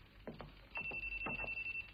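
A telephone ringing, quiet rapid electronic trilling pulses in short bursts, with a faint steady tone sounding through the latter part.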